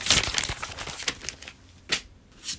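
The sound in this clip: Notebook paper being handled, crinkling and rustling in a dense stretch of uneven bursts at first, then thinning to a few separate rustles.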